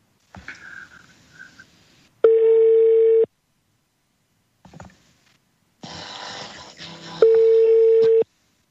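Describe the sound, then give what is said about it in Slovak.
An outgoing telephone call rings out with two steady electronic tones, each lasting about one second and spaced roughly five seconds apart. Quieter rustling and murmuring sounds fill the gaps between them. “Počkaj, my už tuším aj voláme. A tak keď voláme, voláme.”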